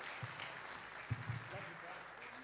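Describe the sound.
A church audience in Ahoskie, North Carolina applauds a guest preacher with faint, steady clapping that holds throughout, with voices underneath.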